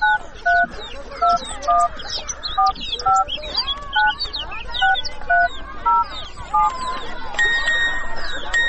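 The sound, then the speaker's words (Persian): A mobile phone's message notification tone for arriving phone credit: a repeating electronic melody of short two-note beeps, then a longer sustained higher tone at the end, over busy background sound. “اوهو اینا پیام تام آمد که کردت بند رسید.”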